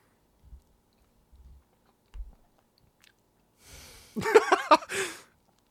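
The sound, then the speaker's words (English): Someone eating a soft strawberry cake: a few faint, low squelches, then a louder, wet stretch of chewing and mouth noises near the end. “Here's what I'm tasting. It's a medley of the sweetness of the strawberry combined with the, I can't even describe it,”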